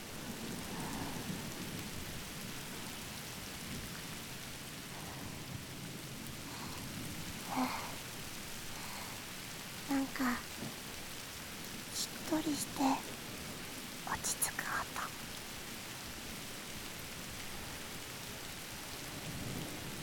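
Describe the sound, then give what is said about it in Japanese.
Rain falls steadily on the ground in a soft, even hiss, with scattered sharper drops and taps rising briefly above the constant wash. “雨が地面に落ちる音が振動して、耳を優しく叩いてくれますよ。”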